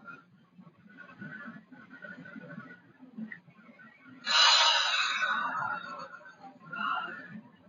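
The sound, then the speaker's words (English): A long, deep breath drawn in through the nose makes a loud airy rush that swells and fades over about two seconds above a low background hum, followed later by a shorter, softer breath. “First, long deep breath from your nose and release from your mouth and just rest, okay? Okay, breathe in.”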